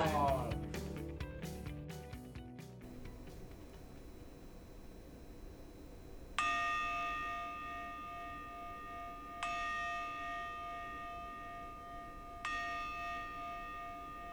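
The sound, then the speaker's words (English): Meditation bell struck three times at steady, evenly spaced intervals, each strike a bright, clear ringing tone that decays slowly. A short jumble of other sound comes before the first strike. “The sounds you just heard are pretty typical meditation bell sounds.”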